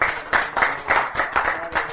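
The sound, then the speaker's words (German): Audience at a church service clapping together in a steady rhythmic beat, with sharp, evenly spaced pulses of massed claps, roughly three per second. “Wenn man über so ein Thema reden kann und alle klatschen und freuen sich.”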